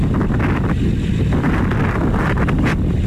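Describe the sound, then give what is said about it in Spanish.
Strong gusty wind during a wildfire amid intense heat, gusts over 60 km/h, heard as a loud, continuous low rumble buffeting the microphone with uneven surges. “las últimas horas están siendo realmente complicadas debido al intenso calor y al fuerte viento, con rachas superiores a los 60 kilómetros por hora”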